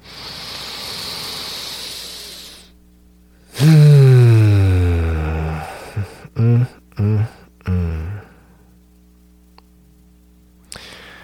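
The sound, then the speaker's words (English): Deep breath drawn in as a long airy hiss lasting a few seconds, followed by a loud voiced exhale that falls in pitch and several short voiced bursts. “So let's take a deep breath in together.”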